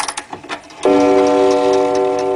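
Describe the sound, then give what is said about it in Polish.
Tower clock mechanism on the Palace of Culture and Science in Warsaw: a few light ticks and clicks, then a steady, buzzing mechanical tone that holds to the end. “Zegar na Pałacu Kultury zatrzymaliśmy dzisiaj o godzinie 11.15 na kwadrans”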